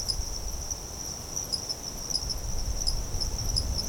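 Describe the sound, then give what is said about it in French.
Insects, mainly crickets, chirping at night in the dry season: one steady, high-pitched trill holds without a break, with a soft low rumble beneath it. “la seule chose qui diffère entre les deux saisons, finalement, ça va être l'intensité de l'activité insecte. C'est-à-dire qu'il y a plus d'activité la nuit durant la saison des pluies que durant la saison sèche.”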